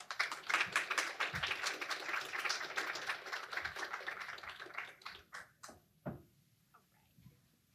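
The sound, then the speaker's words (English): Audience applause welcoming speakers at a church missions recap, a quiet burst of dense clapping that thins out into a few scattered claps before fading away. “So Andrea and Erin, y'all give them a hand.”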